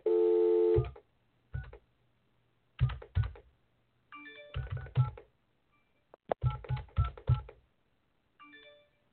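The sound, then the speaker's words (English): Telephone touch-tone dialing while calling in on a guest line: a steady tone opens, followed by irregular clusters of short keypad beeps separated by brief pauses. “I'm going to try and call in on the guest line.”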